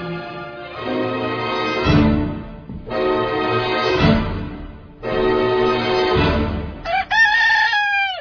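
A rooster crows loudly three times in succession, each crow long and drawn out with short pauses between, followed by a briefer final call.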